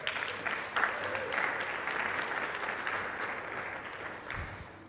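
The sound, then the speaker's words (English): Audience applause welcoming a speaker to the stage: steady, dense clapping from a crowd, sustained throughout and fading slightly at the end, with no talk over it. “Why don't you give it up for Hayley?”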